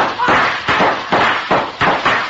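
Gunfire in a shootout: several loud, sharp bangs come at a fairly even rhythm, each a hard burst that quickly trails off before the next.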